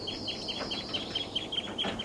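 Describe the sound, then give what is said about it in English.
Flock of seven birds calling: many short, high chirps repeat steadily and fairly faintly throughout, with no other sound standing out. “They're calling a lot. Seven birds and they're taking off.”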